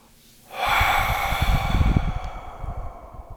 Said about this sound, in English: Begin to breathe in and out of the mouth.